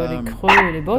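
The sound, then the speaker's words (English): Dog barking, with a couple of short, high yelping barks mixed in among spoken French words in one brief burst. “Donc ça c'est le premier chien que j'ai rencontré.”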